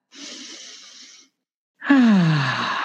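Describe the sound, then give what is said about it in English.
A deep breath taken slowly: a long airy inhale, a brief pause, then a louder voiced sighing exhale whose low hum drops in pitch as it trails off. “I'd love to begin by asking you to just take a deep breath.”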